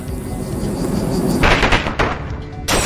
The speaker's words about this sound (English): Select an action for Symphonid. Attack. Choose a move. Plague. Insect. Special. Effect points 95. UP remaining 16. Symphonid used Plague.